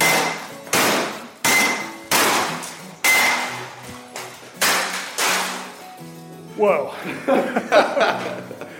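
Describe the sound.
Hammers smash textile machinery in a steady series of heavy, ringing blows about every second, then give way to lighter, quicker clanks and clatters.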